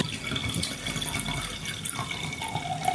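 Water running in a gents urinal: a continuous trickling, splashing flow at moderate level that stays steady throughout, with small bubbling variations.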